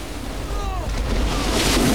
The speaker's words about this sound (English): Later, wearing a wetsuit, John attempts to ride a wave on his board.